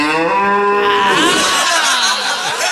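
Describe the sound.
A bull bellows as a sound effect: one long, loud, harmonic moo that wavers and drops lower in pitch toward its end, heard alone.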